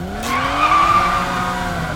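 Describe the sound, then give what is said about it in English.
Car tires skid in a brake slide during a chase, giving a loud, sustained screech over a steady engine tone. “I think I'm getting the hang of this brake slide thing.”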